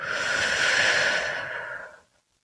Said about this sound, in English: I want you to start by taking a deep breath in and a deep breath out.